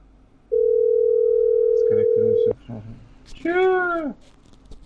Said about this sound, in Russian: Так, я набираю, ребят.